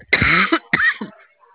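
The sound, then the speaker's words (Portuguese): Two harsh, loud coughs in quick succession from a person with a cough during a phone call, heard alone with a short pause between them. “Desculpa, desculpa que eu tô com uma tosse, menina do céu.”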